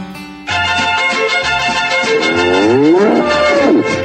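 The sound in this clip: A bull bellows loudly in one long, drawn-out call for bullfights in Poloros, its rich harmonic tone wavering and sliding up and down in pitch toward the end, alone with no voices.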